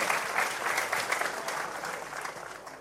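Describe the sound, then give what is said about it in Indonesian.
Applause from an audience at a question-and-answer session on Islamic teaching: a dense, steady clatter of many clapping hands, even in loudness throughout and easing slightly at the end. “Oke, tepuk tangan untuk Abu Bakar.”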